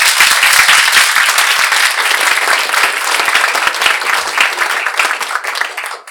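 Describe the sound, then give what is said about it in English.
An audience gives loud, dense applause to welcome a guest, a continuous wash of many hands clapping that thins out and fades at the very end. “please put your hands together and welcome Mike Biritz.”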